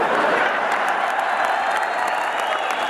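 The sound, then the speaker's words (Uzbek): An audience bursts into loud, dense applause, with clapping sustained evenly across a few seconds. “Qarsak chalganlarga kattakon rahmat”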